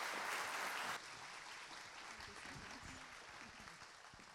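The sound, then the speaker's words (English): A church audience applauds a guest speaker. The dense patter of clapping is loudest for the first second, then carries on steadily at a lower level. “Can we give her a hand? Absolutely.”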